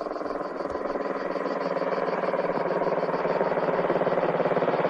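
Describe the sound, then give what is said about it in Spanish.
A motorcycle with a sidecar loaded with luggage carries two men along a road, its engine giving a steady, droning hum with a rapid, even pulse that holds constant throughout. “Los dos hombres continúan circulando por la carretera y llevan mucho equipaje en el sidecar.”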